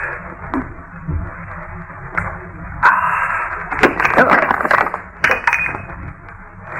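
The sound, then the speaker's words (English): A beer stein cracks as it is set down, giving a sharp crack followed by a few scattered knocks and clatters of uneven loudness. “Well, all I did was put down the stein. It must have had a crack.”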